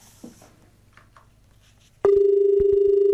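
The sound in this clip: A telephone call comes in as a loud, steady electronic line tone with a repeating pulse, starting abruptly about two-thirds of the way through after low, faint background noise.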